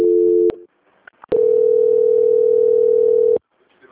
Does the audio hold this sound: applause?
no

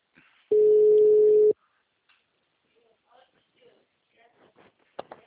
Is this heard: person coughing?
no

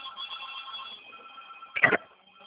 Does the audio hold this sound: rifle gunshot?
no

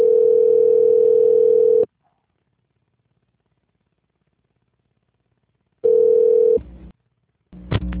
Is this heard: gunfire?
no

